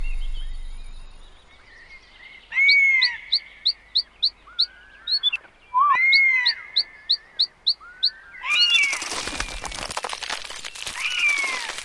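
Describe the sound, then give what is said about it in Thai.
A flock of wild birds over rice fields gives a steady run of many bright, short chirps, and a broad rustling noise rises over them toward the end. “ด้วยฝูงนกป่าบินผ่านข้าวในทุ่งนาไป”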